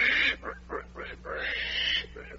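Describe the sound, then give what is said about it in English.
A pig, transformed from a baby, oinks in a rapid series of about six short, nasal squealing grunts, the longest near the end, with a faint steady hum underneath. “Well, there's no mistaking it now. You are turning into a pig.”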